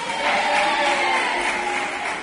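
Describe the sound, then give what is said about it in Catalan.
School pupils applauding at a gathering of several schools, a steady, moderately loud patter of many small hands clapping together. “Gràcies pels aplaudiments i els ànims als companys.”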